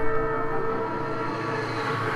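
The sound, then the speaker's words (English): Train noise: a steady, droning tone with layered harmonics over a low rumble, holding constant at even loudness for about two seconds without speech. “Hits the train. Choo-choo.”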